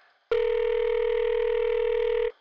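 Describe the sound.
An electronic beep from a telephone answering machine: one steady mid-pitched tone that starts and stops abruptly, lasting about two seconds, loud and alone.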